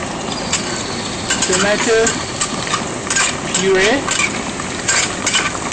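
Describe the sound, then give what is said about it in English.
Stirring tomato puree into browned onion in a pot: a spoon scrapes the base in a few strokes over a steady sizzle of frying. “tomato puree and stir”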